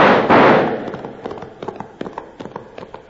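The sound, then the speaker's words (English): A gunfire volley rings out in a Western ambush on riders returning to a ranch. A loud opening blast of noise gives way to a quick, scattered string of many sharp cracks that gradually thin out. “When the sound of hooves echoed in their ears, Rab gave the order to fire. Let them have it! Blast them out of them saddles!”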